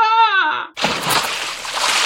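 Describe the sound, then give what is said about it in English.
A person falls off a rope bridge in a fun house and splashes into a gunge tank: a short voiced cry comes first, then a loud, broad, sloshing splash that keeps churning to the end. “He's fallen in the gunge tank.”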